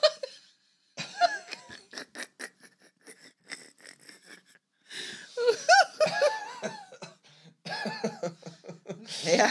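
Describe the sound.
Coughing fits after wine is breathed in by accident: harsh, broken bursts and wheezes in several clusters with short silent gaps, mixed with laughter.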